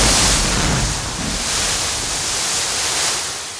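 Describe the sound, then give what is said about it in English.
Broad rushing water roars as a 4x4 hits the water at the bottom of a cliff and sinks, a dense, steady wash of noise that eases slightly toward the end. “A deafening crash fills your ears. You feel cold, and it's getting dark. Looking out of the window of the 4x4, you realise you've hit the water at the bottom of the cliff and are descending into the depths.”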